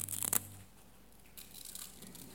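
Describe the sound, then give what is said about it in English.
Someone peels the top layer off a communion cup to reach the bread. A brief crinkly tearing burst comes first, then quieter plastic rustling. “So if you want to rip off the top layer, and get the bread out.”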